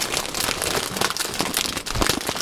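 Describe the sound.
Business socks rustle in a continuous, scratchy crackle, dense and fairly loud throughout, with no talking.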